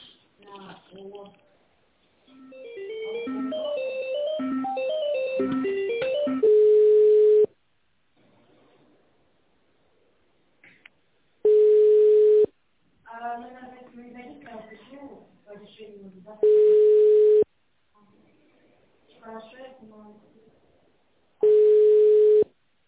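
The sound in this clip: A business phone call is put on hold for a transfer. Four long, steady, mid-pitched beeps sound about five seconds apart, with speech and recorded voice passages between them.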